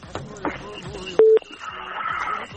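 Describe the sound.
One short, steady telephone keypad tone beeps as a number is dialed, rising loud and clear for a moment over continuous talk.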